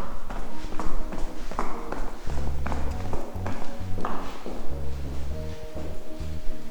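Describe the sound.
Footsteps go down a few steps in a steady run of soft taps and knocks over a low, even hum.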